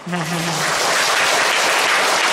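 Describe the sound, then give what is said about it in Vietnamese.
Audience clapping during a Vietnamese Buddhist dharma talk: a brief voice at the start gives way to dense, steady applause that holds at an even loudness. “Vỗ tay cho vui thôi.”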